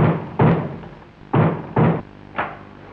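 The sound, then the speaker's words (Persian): Heavy knocking on a door with English shoes: four dull, loud thumps at uneven intervals, the last one noticeably softer, with quiet pauses between. “صد دفعه گفتم به اون کفشای انگلیس فقط به در نزن”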